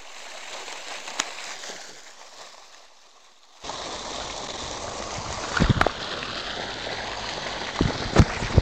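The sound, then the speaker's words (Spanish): Water pours and flows inward with a steady, broad rushing hiss that jumps abruptly louder partway through. A few sharp knocks and splashes stand out against the rush. “El ruido del agua. El ruido del agua. El agua entra dentro.”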